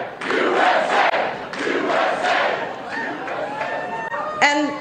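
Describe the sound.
A political rally crowd chants in loud, rhythmic bursts of massed voices, with a sharper shout rising near the end.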